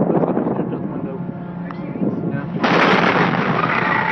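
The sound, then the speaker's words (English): Fertilizer plant explosion caught on video: a loud, continuous rumbling roar of noise that surges abruptly louder about two-thirds of the way through and stays heavy to the end. “At 7:51 p.m., the West Fertilizer plant exploded.”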